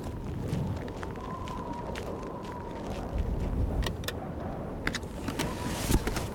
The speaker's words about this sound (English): I need to get out of this wind.